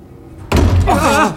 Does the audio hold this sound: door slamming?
yes